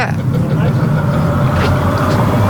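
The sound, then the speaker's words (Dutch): Low, steady engine rumble from a car passing by on a Dutch bridge that is still raised by an old hoisting machine. It holds a constant level throughout, with no clear rise or fall. “ook komt weer een auto voorbij, zo gaat het maar.”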